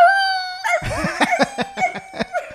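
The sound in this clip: A stray street dog howls as if singing along, opening with a sustained, high, clear tonal wail, then breaking into a rapid run of several short, rhythmic yelping pulses.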